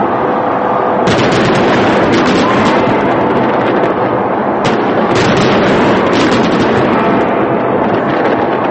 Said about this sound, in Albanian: Zyrtarët e qytetit organizuan një shfaqje masive të fishekzjarëve.